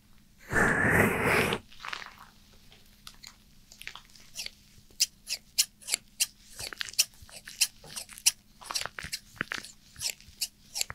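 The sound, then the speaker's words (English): Scissors cutting hair: many sharp, crisp snips in an irregular rhythm, preceded by a short, loud hissing burst, all over a low steady hum. “Maybe today I will cut some of your hair too.”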